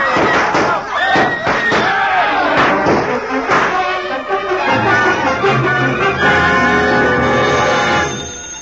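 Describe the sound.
Sharp bangs of a gunshot sound effect in a radio drama scene where a thief flees a hotel lobby, a few loud percussive cracks within dense, noisy crowd-like sound.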